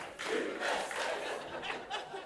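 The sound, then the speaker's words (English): A studio audience cheers and whoops, a fairly faint, continuous roar of voices that swells in a few waves without breaking. “You'll cheer anything.”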